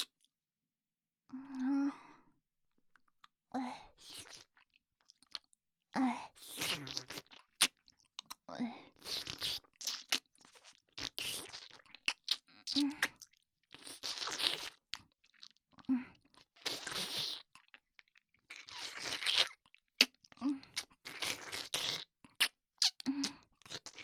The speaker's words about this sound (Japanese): いいよ。一緒にチョコ食べよう。